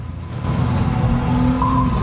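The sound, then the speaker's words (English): A car engine runs steadily with a low, rumbling hum, and a faint higher whine enters near the end. The car is pulling up to stop. “After a few moments, a green car pulls up and stops a little ahead of him.”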